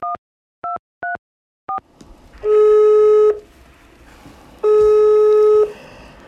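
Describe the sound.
A telephone call being dialed: four short touch-tone beeps, then two long, steady ringing tones separated by a quiet gap. No voices are heard.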